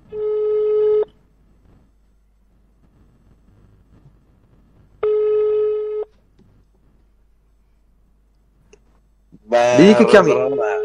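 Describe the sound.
Telephone ringback tone on a call placed to a restaurant: two steady one-second tones about four seconds apart with near silence between, then a voice answers.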